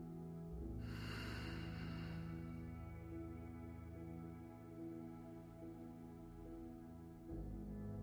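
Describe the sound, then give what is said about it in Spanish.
Slow, deep breathing in a guided meditation: a long, airy breath swells softly over a sustained gentle musical drone, and the rest stays quiet and faint. “Fluye conmigo. Inhala. Exhala.”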